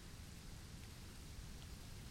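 Steady rain on a rainy day, an even, unbroken hiss over a soft low rumble, faint and constant from start to finish with no talking.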